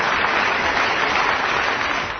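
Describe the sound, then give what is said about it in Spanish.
Sustained applause from an auditorium audience: a loud, dense, even roar of many hands clapping together that eases off slightly at the very end. “¡Un aplauso grande!”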